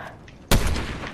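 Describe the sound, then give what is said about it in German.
Gunfire in a video game shooter, a single sharp, loud shot bursting out after a quiet half second, followed by a rough decaying tail. “Ey, auf dich wird geschossen.”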